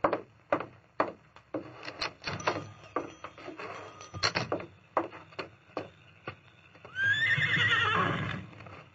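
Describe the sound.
A horse's hooves clip-clop in many uneven beats as a rider mounts and settles the animal in a radio western drama. A loud, sustained whinny follows near the end, and no voices are heard.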